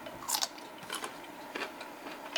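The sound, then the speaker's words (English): Crisp biting and chewing of a fermented carrot: a few faint, crunchy bursts spread out with quiet gaps between them. “Now, this is my new favorite way to eat carrots. We eat these on salads all the time.”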